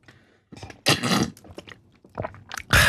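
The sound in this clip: Sipping and gulping as someone takes a drink on a hot day: a few wet, noisy bursts separated by short pauses, the loudest near the middle and at the very end, with no talk.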